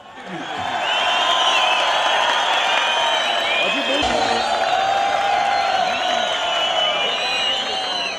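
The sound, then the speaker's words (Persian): Audience cheering and applause welcome a performer on stage, a loud, steady crowd roar of voices and whoops that holds at an even level throughout. “اما آقای زرگر رو میخوام دعوت کنم با تشویق شما عزیزان.”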